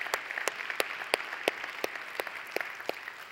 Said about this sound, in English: So if you're a regular here at The Bridge, would you join me? Let's just put our hands together and welcome all of our guests.